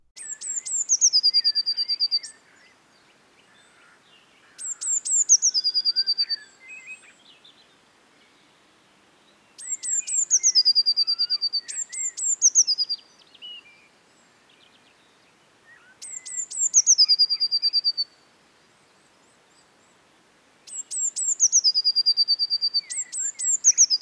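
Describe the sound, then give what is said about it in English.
Buzzy, high-pitched trilling song of a blue tit, the territorial or mate-attracting song of late winter and spring, repeated in five separate bouts with short silences between them. “repeating trill, again buzzy and high-pitched, not dissimilar to the call, but more drawn out, and are mostly used in late winter and spring to defend the territory or attract a mate.”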